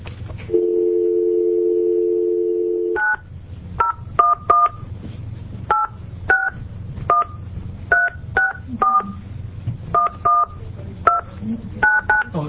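A telephone call is dialed: a steady dial tone holds for about three seconds, then gives way to a quick, uneven series of many short, clear keypad beeps, each a bright two-tone chirp.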